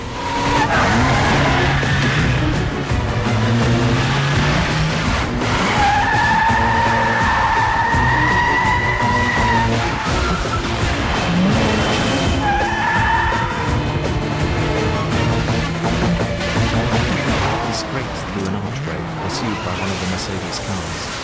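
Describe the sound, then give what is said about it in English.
Tires screech as a car speeds off during a chase over a bridge near a tram, with a 4x4 in pursuit. Loud, steady engine noise runs throughout, and sustained squealing tones rise above it in a couple of stretches. “Then Bourne speeds off again.”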